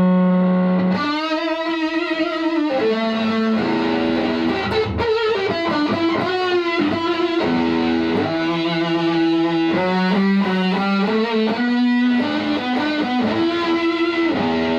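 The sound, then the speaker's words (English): An electric guitar played through a Russian-made Big Muff distortion pedal produces thick, fuzzy, sustained notes, with slides and bends running through a continuous loud riff. “And then of course this one is the Russian Big Muff. Which is built like a Russian tank. I'm most excited to hear this one.”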